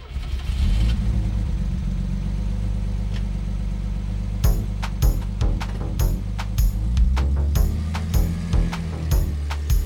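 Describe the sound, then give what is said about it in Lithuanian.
A car engine revs at high speed, keeping up a low, droning rumble. In the second half the drone is broken by repeated sharp, clattering bursts. “Dvi mašinos susipyko siauru miško takučiu, abi važiavo dideliu greičiu.”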